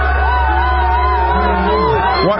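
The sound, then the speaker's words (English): A crowd at an event in Minnesota shouts down a female speaker. The mass of overlapping voices is loud and unbroken, with yelling and whoops running continuously throughout. “Why are they shouting her down? I'm just kind of curious. Oh, and it goes on for a couple minutes.”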